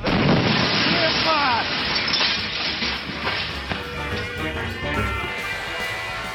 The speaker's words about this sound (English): A meteorite providing a spectacular show until it suddenly explodes 30 miles above the Earth.